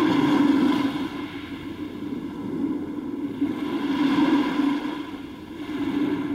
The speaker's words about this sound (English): This is the sound of the ocean through a seashell. People commonly hear it because they pick it up by the ocean and put their ear to it.